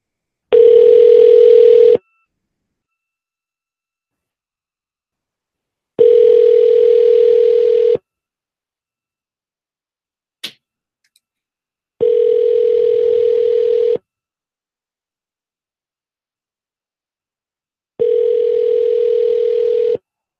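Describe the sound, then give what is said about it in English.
Telephone ringing tones on a call to an Exxon station in Miami: four long, steady buzzing tones, evenly spaced with silence between them, and one brief click partway through. “Let's call. We're just going to do a few more. And wrap this up. Called some places in Miami. Oh, here's an Exxon in Miami.”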